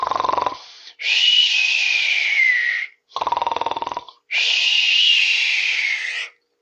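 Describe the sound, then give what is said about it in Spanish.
Loud snoring from a man asleep lying on a river beach, with two cycles, each a rattling, sputtering inhale followed by a long, high whistling exhale, separated by short gaps. “Mientras Josué, dormido, tendido en la playa del río, roncaba,”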